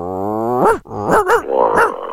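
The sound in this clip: Dog growling and barking over a telephone line: a long, low, steady growl, then a few sharp barks that rise and fall in pitch, loud and alone.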